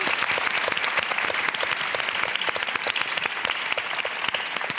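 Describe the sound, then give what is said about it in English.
An audience applauds a panel at the close of a discussion. The clapping is dense and sustained, holding an even loudness from start to finish. “And on behalf of the audience, let's put our hands together and thank this panel.”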